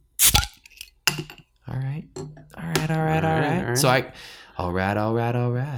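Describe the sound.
An Italian beer is cracked open with a sharp, loud crack and hiss near the start, then a second brief snap, followed by people talking.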